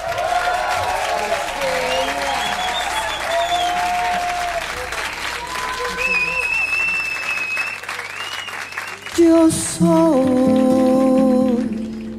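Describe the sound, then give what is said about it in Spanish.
Audience applause greeting a guest singer at a live music event, a dense, steady wash of clapping that holds for about nine seconds before giving way to music. “Un aplauso”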